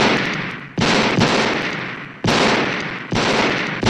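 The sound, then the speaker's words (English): Gunshots fired repeatedly at a man inside a house: four loud, sharp blasts at uneven intervals, each followed by a long, slowly decaying tail, with no voices. “Myers stumbles into another room and Loomis shoots him 6 more times until he falls off the roof.”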